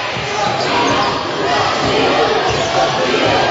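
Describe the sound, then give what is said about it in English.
A basketball is dribbled on the court during a high school sectional championship game, with a few dull bounces under a constant roar of crowd noise. “It's Muldoon on the dribble, patrols the perimeter, gives it around to Smith.”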